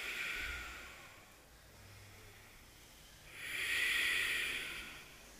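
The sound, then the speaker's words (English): Ujjayi yoga breathing in and out through the nose during an all-levels power yoga class: two long, hissing breaths with a quiet gap between them, the second louder and fuller. “Ujjayi breath in and out through your nose.”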